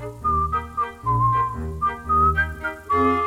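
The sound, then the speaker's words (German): A cheerful, lively melody whistled by a chick in a children's audio story, bright tonal notes hopping up and down in short phrases with brief gaps, fairly loud and with no talk over it. “Küken pfeift eine hübsche, fröhliche Melodie, während Ferkel neben ihm immer langsamer wird.”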